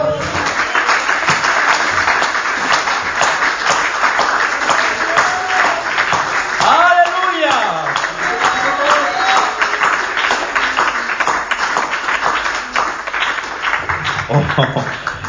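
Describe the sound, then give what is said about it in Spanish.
A church audience applauds during a sermon, producing a thick wash of clapping that runs loud and unbroken throughout, while a voice briefly rises above it around the middle. “Yo creo que Él se merece un aplauso.”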